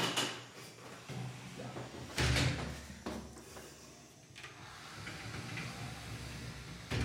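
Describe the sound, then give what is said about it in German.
Shower cabin door being opened: a faint, rough sliding rumble with a louder scraping burst partway through, heard alone at low volume. “so, jetzt öffnen wir mal das Duschkabine.”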